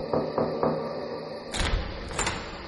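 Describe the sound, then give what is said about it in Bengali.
Signal knocks on a door in the dark: a few soft, evenly spaced raps, followed by two louder, broader bursts of noise. “কনস্ট্যান্স অন্ধকারের মধ্যে বাকিংহামের পাশে গিয়ে দাঁড়িয়ে দরজায় চারবার সংকেত সূচক টোকা মারল।”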